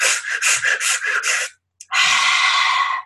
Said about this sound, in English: sometimes I also find if there's something really to be released, you can just do this quick breath, like,